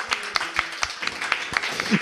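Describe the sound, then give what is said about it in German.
A theatre audience in Innsbruck gives itself a round of applause at the end of a stage show. Distinct, fairly sparse hand claps repeat at an uneven pace, with voices nearby. “Ja, oder geben Sie sich mal selber einen Applaus ja. für Innsbruck.”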